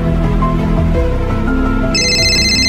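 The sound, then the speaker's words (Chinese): A phone ringtone from an incoming call from a mother, its bright electronic tones entering near the end over a dense, continuous music bed. “一日，阿杰接到是家乡妈妈的电话”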